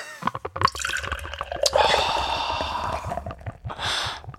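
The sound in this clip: Beer poured from an unwieldy bottle: a sustained, splashing and gurgling flow of liquid lasting a couple of seconds, preceded by a few short clinks and rustles and followed by a breathy hiss.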